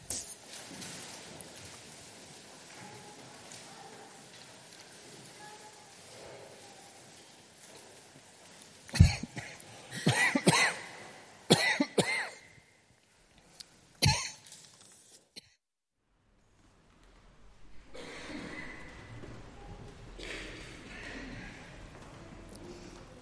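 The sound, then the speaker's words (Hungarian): Coughing from someone who swallowed the wrong way: a cluster of sharp, loud coughs breaks into a quiet, low-humming stretch. A pause follows, then one more cough, and after that a short stretch of near silence. “Elnézést. Úgy látszik, nem szabad nyelnem, mellé nyeltem.”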